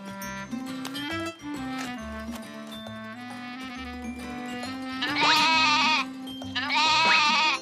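A hungry goat bleats twice in autumn, with two loud, wavering cries near the end over a steady musical background.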